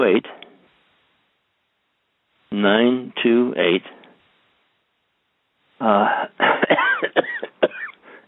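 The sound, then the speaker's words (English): Coughing and throat clearing come in three separate harsh, fairly loud bouts, with short silences between them. “In fact, I'm beginning to cough right now.”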